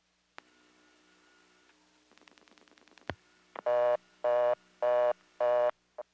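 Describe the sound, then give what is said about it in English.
A telephone trunk is dialed to vacant level 0 and falls to reorder tone: a click over faint hum, a rapid train of dial pulses, another click, then loud, evenly spaced reorder tone bursts, four full ones and a fifth starting. “I've been left on the trunk with nothing dialed. I'm going to dial 0, which is a vacant level, and we'll go to reorder.”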